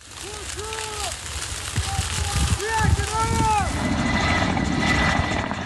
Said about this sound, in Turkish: Alevler sarp arazide yayılınca helikopterler arka arkaya sortu yaptı.